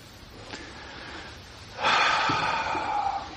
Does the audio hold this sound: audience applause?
no

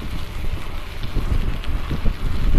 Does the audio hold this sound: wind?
yes

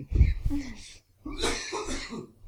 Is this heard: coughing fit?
yes

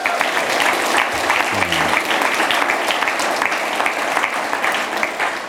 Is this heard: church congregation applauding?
yes

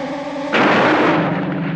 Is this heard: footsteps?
no

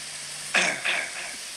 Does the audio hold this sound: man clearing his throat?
yes

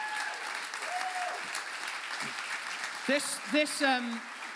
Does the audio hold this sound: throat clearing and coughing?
no

